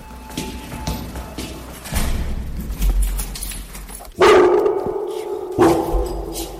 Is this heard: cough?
no

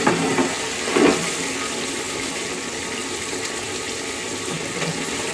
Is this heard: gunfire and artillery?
no

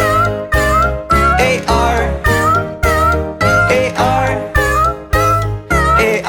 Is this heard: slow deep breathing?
no

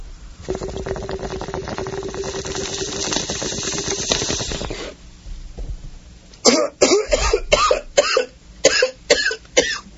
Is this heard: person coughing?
yes

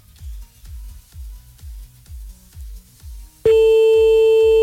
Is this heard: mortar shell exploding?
no

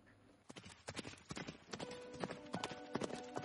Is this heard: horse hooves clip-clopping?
yes

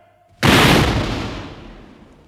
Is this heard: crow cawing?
no

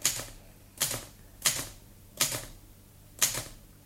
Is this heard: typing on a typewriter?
yes

